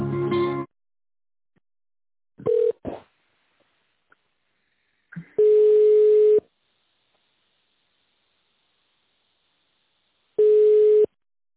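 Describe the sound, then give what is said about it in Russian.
Telephone tones play while a call is transferred: a few steady, mid-pitched tone pulses separated by long silences, with some brief clicks and line noises in between. “Я сейчас вас перенаправлю, оставайтесь на линии.”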